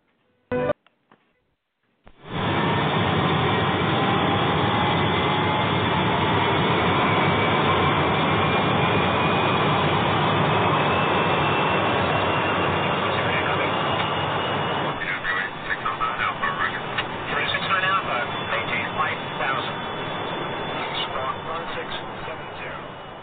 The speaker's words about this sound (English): Now, I see we're number one for takeoff, so, Captain, let's get flight number 402 in the air and heading to Portland.